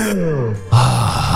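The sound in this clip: Moaning vocals in a rock song: two drawn-out groans, the first sliding downward in pitch, the second louder and steadier, with no words.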